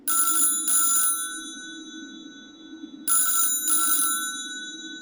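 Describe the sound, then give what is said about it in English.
A telephone ringing after a call is dialed from a computer: two pairs of bright, electronic double rings separated by a pause, with a low steady hum underneath throughout. “I took the liberty of dialing for you.”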